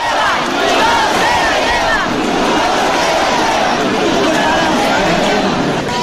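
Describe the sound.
Crowd shouting at the Cascamorras festival in Guadix: a loud, continuous mass of voices with overlapping yells and chatter, holding steady at full volume throughout.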